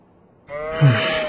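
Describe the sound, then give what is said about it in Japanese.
A goat bleats once, a loud, nasal, wavering cry that starts abruptly after a brief quiet moment, swells slightly and holds steady to the end. “ヤギに懐かれてるね。”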